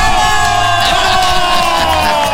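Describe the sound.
Loud cheering, whoops and shouts from a studio audience greeting a guest's entrance on a show, a dense, continuous roar of many voices throughout.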